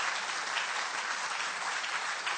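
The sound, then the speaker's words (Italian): An audience at an Italian worship service applauds in praise of God. Dense, continuous clapping holds at a steady level from start to finish. “Facciamo un applauso al Signore, diamogli gloria.”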